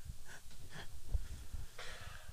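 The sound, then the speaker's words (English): Heavy breathing as a man catches his breath after laughing, with several faint, raspy inhales and exhales and no talk over them. “Well, I have to get my breath. Give me a second.”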